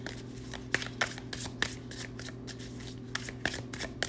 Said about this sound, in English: Justice card just flipped out. Let's see what else we can get.